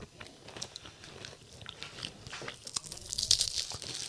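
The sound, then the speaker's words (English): Close-up ASMR crunching as someone bites into a cracker sandwich from a charcuterie board: a few crisp, brittle bites and crackles that build toward a sharper crunch near the end. “Here's a little cracker sandwich.”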